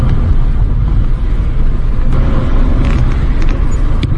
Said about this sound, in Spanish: Me encanta la caja de cambios, cómo entran las velocidades, suaves, suaves.